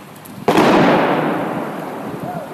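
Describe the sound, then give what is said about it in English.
A police controlled detonation of a suspicious package gives one sudden, loud boom, followed by a broad rumbling roar that slowly fades over about two seconds. “they were getting ready to perhaps take action to blow up the package.”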